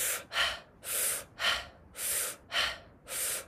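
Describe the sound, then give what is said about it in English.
Fast, forceful breaths in and out through the mouth during a guided breathing exercise, a quick, even rhythm of airy, hissing inhales and exhales with no talk. “we're going to take, 4 rounds of 5 breaths. It's going to be in and out through your mouth.”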